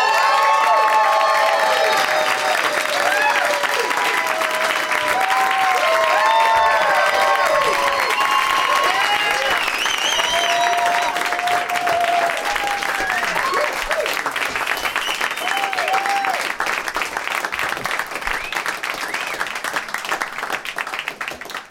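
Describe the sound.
Loud, sustained applause and cheering from an audience welcoming three guests, with dense clapping running steadily throughout, scattered whoops and shouts on top, and a slight taper at the very end.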